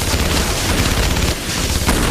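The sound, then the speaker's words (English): Machine gun fire from soldiers shooting along a grassy roadside in an action film scene: a loud, dense, continuous rattle of gunfire with heavy booming low end and no pause. “As 80 and 82 aim their machine guns, Veronica and Luke sprint for the bushes nearby.”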